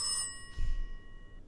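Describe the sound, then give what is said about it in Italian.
A telephone rings for an incoming call during a live radio phone-in, a single bright bell-like tone that rings out and fades, followed by a faint low thump. “Sì, abbiamo una telefonata. Ok, la prendiamo.”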